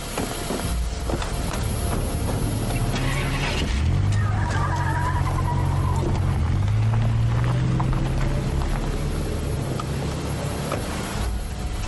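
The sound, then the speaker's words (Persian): A car drives off, its low engine hum rising in pitch twice over a steady wash of road noise. “ماشینه رو تکون بدین، ببرینشون”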